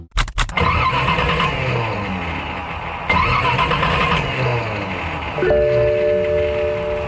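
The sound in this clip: An old car engine struggling to start: a few sharp cranking bursts at the start, then steady rough, loud engine noise running on alone.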